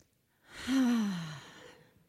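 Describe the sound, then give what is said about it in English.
A group takes one big breath together during a morning talk: a long, voiced, sighing exhale of about a second that swells, then slowly fades, its tone sliding gently downward, with silence before and after. “Let's take a big breath together.”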